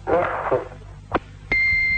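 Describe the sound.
An answering machine beep sounds during a live radio phone call: brief talk and a faint click come first, then a single long, steady, high electronic tone that holds to the end.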